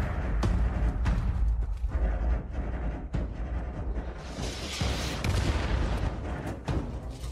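Gunfire in a video game set on a new American frontier: many sharp shots and low booms pack a loud, dense battle din that stays steady throughout.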